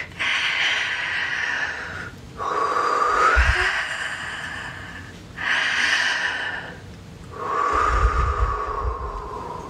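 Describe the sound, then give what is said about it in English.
Slow, deep breathing during a meditation, with four long, airy breath sounds alternating in and out, each swelling and fading over about two seconds, with no talk. “Deep breath into the solar plexus. Breathe, open, allow.”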